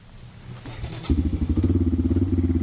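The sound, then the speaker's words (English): A Yamaha four-wheeler engine, ridden through snow on a plowed suburban road in Durham, grows louder over the first second, then settles into a steady, rapid, low throbbing pulse. “He's on his Yamaha four-wheeler to deliver medicine to a friend nearby.”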